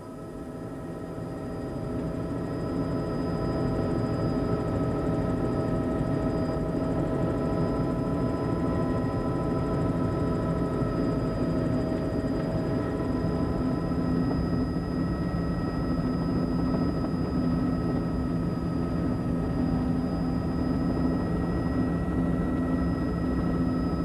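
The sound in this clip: Aircraft engine droning during a landing attempt, a steady low roar with a thin high whine above it, swelling over the first few seconds and then holding level without voices.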